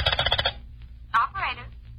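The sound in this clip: A telephone is dialed: a quick run of short, bright dialing tones, then a person speaks briefly.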